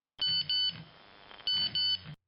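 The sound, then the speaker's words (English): A mobile phone buzzing in someone's hand with an incoming message: two pairs of short buzzing pulses carrying a bright electronic tone, with a quiet gap between the pairs. “He's setting his alarm when his phone buzzes in his hand”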